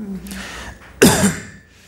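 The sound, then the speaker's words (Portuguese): A boy coughs once, sharply and loudly, with a short rasping tail after a quieter stretch. “Quem tossiu foi o menino, tá?”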